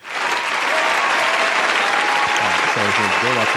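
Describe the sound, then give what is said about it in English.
An audience applauds with loud, dense, steady clapping that fills the whole stretch, and a voice talks over the applause near the end. “round of applause for that”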